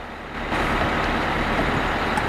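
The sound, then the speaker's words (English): Bus pulling up outside a cafe with air brakes, its door springing open: a steady, loud, broad engine rumble and hiss that starts abruptly and carries on, with no talk. “a bus pulls up outside the cafe and the door springs open.”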